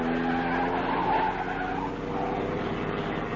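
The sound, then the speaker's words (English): A car speeding and skidding around a corner in a chase: a loud, sustained tire squeal over the roar of the engine, continuous from start to finish. “Stop that car! Step on it, Julie. Faster, faster. Turn the corner.”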